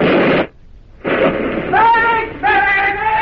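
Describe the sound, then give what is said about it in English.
Mortar shell bursts in a battlefield setting: a broad, roaring blast at the start, then a longer rumbling stretch with a raised voice crying out over it. “You forget sleep now. Those mortar bursts have shaken you back to life.”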